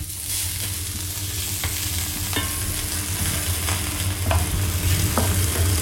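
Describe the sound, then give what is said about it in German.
Onions sizzle steadily as they fry in a pan for a spätzle dish, a continuous crackling hiss with a few sharp clicks and scrapes from stirring, and no voices. “Genau, dann braten wir die Zwiebel an.”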